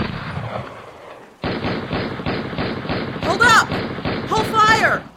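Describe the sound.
Rifles open fire in a sudden, dense volley of many sharp cracks after a quieter opening stretch, with people shouting over the shooting.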